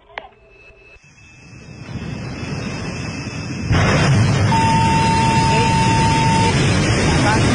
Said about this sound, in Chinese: 随着一声令下，长征7号遥9运载火箭底部瞬间喷出巨大的火焰，强烈的气流以排山倒海之势向四周扩散。